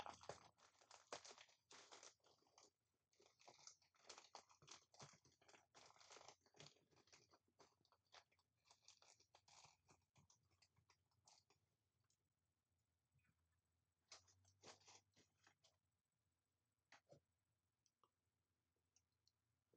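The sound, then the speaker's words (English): A pack of cards is torn open, with quiet crinkling and crackling of the wrapper in dense clusters that thin out to sparse clicks and rustles toward the end. “All right, let's do a pack of cards here.”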